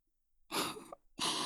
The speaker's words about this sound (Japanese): ちょっとおとなしくしててね。ふうふうして軽く飛ばしちゃうから。